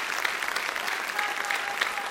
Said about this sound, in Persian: من میخوام یه تشویق جانانه از کوچاتون داشته باشین با جیغ هورا